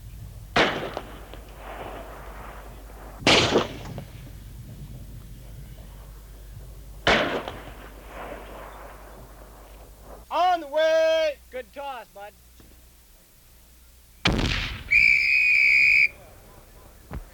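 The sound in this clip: 3.5 rockets fired and exploding during military training: four sharp, booming blasts spaced across the span, with shrill whistling, warbling tones between the later blasts.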